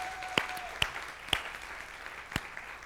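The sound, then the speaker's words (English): Applause from a church audience giving a big hand: quiet, steady clapping with a few sharper claps standing out. “Everybody in North Attleboro, let's give them a big hand. Tell them we love them.”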